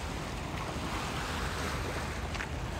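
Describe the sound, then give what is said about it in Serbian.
Ocean waves and surf make a steady, loud rushing roar mixed with wind noise. There are no distinct breaking crashes and no talk. “Evo su se i talasi pokrenuli, takva neka fenomenalna energija.”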